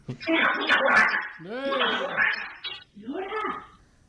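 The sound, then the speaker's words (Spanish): A talking parrot scolds its female owner for smoking and drinking beer, imitating human speech in raspy, squawking phrases. It comes in three bursts with sliding pitch and a brief gap before the last. “Vamos a escuchar lo que dice Lora Prodigio a su dueña cuando fuma y bebe una cerveza.”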